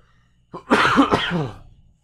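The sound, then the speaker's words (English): A single cough that runs into a rough, voiced throat clearing during a casual conversation. It is a short loud burst followed by a raspy tail, with no talk over it. “Forgive my cough, everyone.”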